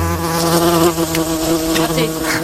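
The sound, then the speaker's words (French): Mosquitoes buzzing in late September make a loud, continuous droning whine whose pitch wavers slightly throughout, with no talk over it. “Raté, ils sont toujours là, les moustiques qui nous envahissent et qui continuent de nous envahir en cette fin septembre.”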